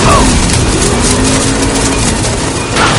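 A car engine accelerating during a film chase through a crop field, heard as a loud, steady engine drone with a low humming tone. It dips briefly and then surges again near the end.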